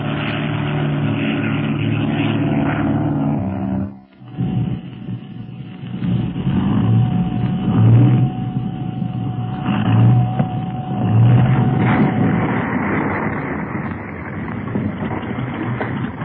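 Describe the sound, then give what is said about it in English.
A seaplane engine drones as the plane lands and taxis up to a float. A steady propeller hum dips briefly early on, then returns with surging, revving swells that rise and ease over a sustained tone. “I'm going to taxi right up to that float so as we won't have to wait to be rowed ashore.”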